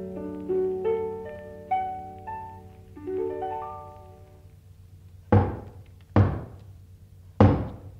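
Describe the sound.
Three loud, sharp knocks on a door, evenly spaced near the end, follow a passage of sustained musical tones.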